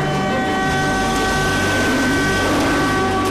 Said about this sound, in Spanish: Cuando el tren pasa a la altura del palo, dos niños saltan por delante para coger la botella de plástico.